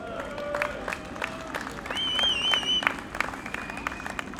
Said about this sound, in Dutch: En voor dat succes vieren we ook vandaag applaus voor deze collega's.